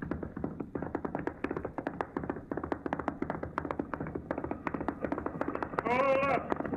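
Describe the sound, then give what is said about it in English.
Horses pulling wagons, with riders, approaching in a steady, rapid run of many hoof taps, and a voice speaking briefly over them near the end. “Up ahead. A bunch of wagons and riders coming this way.”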